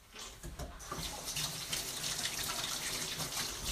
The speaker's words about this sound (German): Kurz Hände waschen.